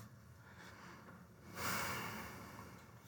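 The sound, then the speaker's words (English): One deep breath taken during a quiet moment of guided prayer in a church service: a faint, airy inhale that swells and then slowly fades against near silence. “We take a deep breath.”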